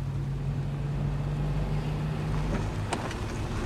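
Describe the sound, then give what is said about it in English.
Red Jeep driving up a long winding driveway: a steady, low engine rumble that holds an even level throughout, with no voices. “The red Jeep pulls up the long winding driveway and parks next to Daya's car.”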